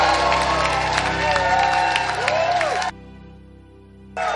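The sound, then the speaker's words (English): A church audience cheers and applauds to welcome its pastor, a Bishop, with a loud, dense wash of clapping and shouting over music. It cuts off suddenly, then briefly returns. “I want you to rise to your feet, make your loudest noise as we welcome our pastor, Bishop Richard Ayi.”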